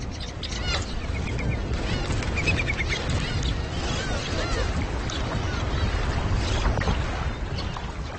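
A flock of birds lands on a pond, with continuous water splashing and scattered chirps and calls over the full stretch, steady and fairly loud throughout.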